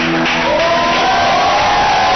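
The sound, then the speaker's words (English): A church audience shouts and cheers in praise, a dense, continuous wash of crowd voices that stays steady and loud through the short stretch. “Clap your hands, oh ye people. Come on, shout to the Lord”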